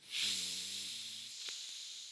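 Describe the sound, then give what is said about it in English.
A deep breath blown out during a heart-chakra breathing exercise, a faint, steady, airy hiss lasting about two seconds with a soft low hum near the start. “Take a deep breath in and blow into your heart chakra. Take another deep breath in.”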